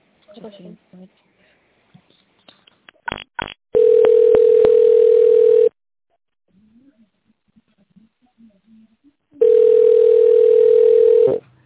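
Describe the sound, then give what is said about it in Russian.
Telephone tone during a call transfer sounds as two long, steady, mid-pitched beeps, each lasting about two seconds. Brief talk and a few sharp clicks come before them, and faint voices fill the gap between. “Так, давайте я вас переключу на специалиста.”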